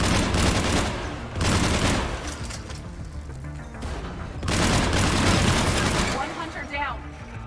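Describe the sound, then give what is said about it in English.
Gunfire from hunters closing in: loud, dense bursts of rapid shots, with a heavy barrage at the start, a quieter stretch, then a second sustained burst. “Oh! They're shooting, but it's not us. The hunters are moving in.”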